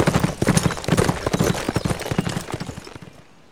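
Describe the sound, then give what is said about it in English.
Horse hooves clip-clop in a busy, rapid rhythm as a horse rides through a box canyon. The beats are loud and dense, then thin out and fade near the end. “Wait! I see a horse coming!”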